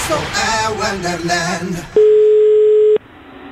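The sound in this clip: A telephone line tone on an outgoing call: a single steady, even, mid-pitched tone lasting about a second, cut off sharply. It follows a stretch of talking.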